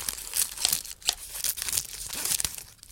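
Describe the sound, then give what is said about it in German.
A piece of bubble wrap is cut to the size of a window pane, giving irregular crinkling, crackling plastic rustles with sharp little snaps and no talk. “Wir schneiden aus der Folie mit ihren Hunderten von Luftbläschen ein Stück aus, das genauso groß ist wie meine Fensterscheibe.”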